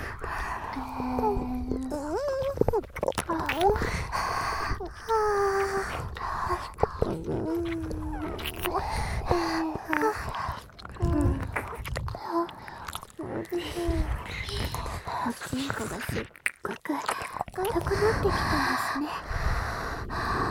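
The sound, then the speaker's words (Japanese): Wet licking and smacking mouth sounds of ear-licking ASMR run steadily through the whole stretch, mixed with breathy gasps, soft voiced sighs and whimpering moans. “太ももだけじゃなくて、あんこもスリスリしながら耳をなめさせていただきますね。”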